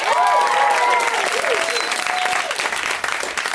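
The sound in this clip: Applause from a comedy club audience for the comics waiting backstage: dense, sustained clapping and cheering that fills the whole stretch at a steady, loud level.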